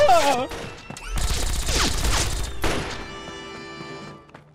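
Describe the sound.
A rapid volley of gunfire during a police standoff: a brief voice, then a dense, loud burst of overlapping shots lasting over a second. Ringing tones linger and fade afterward.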